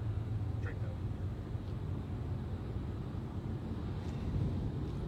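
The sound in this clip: Steady rumbling road and wind noise fills the inside of a moving car fitted with microphones, a continuous dull roar under muffled voices.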